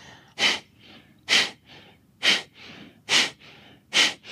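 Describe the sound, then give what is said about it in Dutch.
Kapalabhati yoga breathing: five forceful, sharp exhalations through the nose as the belly is pulled in, each a brief airy burst. They come in a steady, evenly spaced rhythm with softer breathing between and no talk. “Ademoefeningen, de Kapalabhati wordt die genoemd. Dus actief je buik naar binnen.”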